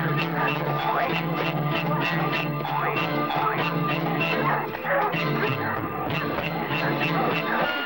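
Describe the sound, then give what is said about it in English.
A pack of dogs barks and bays as it speeds along a trail. Many overlapping yelps and barks form a continuous, loud clamor throughout. “The pack of dogs speeds along their trail.”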